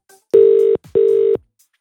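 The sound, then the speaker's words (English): A telephone call's ringing tone plays as two steady, low-pitched tone bursts of equal length, separated by a short gap, with quiet pauses around them. “We're going to call Esther Hyam, host of Inspirational Breakfast, and just ask her what she's drinking. Here we go.”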